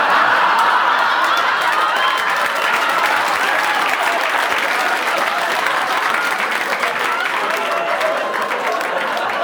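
Studio audience applause: dense, loud, steady clapping from many hands that continues without a break from start to finish.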